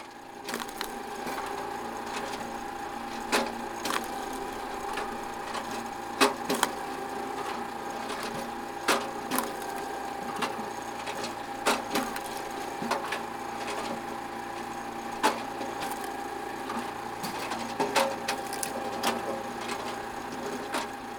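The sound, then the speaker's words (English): A log splitter breaks wood stumps down into firewood sticks, with a steady mechanical hum and many sharp wood cracks and snaps at irregular intervals. “Each stump is lifted once again onto the splitter, where the operator takes slices off the log until it has been broken down into camper-friendly fire”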